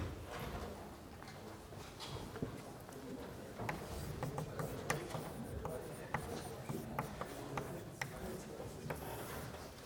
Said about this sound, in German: Als größere Überschrift schreibe ich heute mal Zeitanalyse darüber.